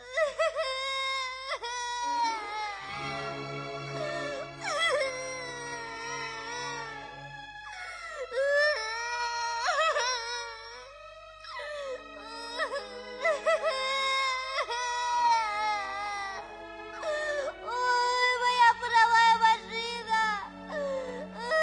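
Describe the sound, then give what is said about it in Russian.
A child cries at length in repeated wailing, sobbing bursts, with whimpers that rise and fall in pitch over a low, steady background. “Ну что ты? Что ты, что ты? Ну перестань плакать.”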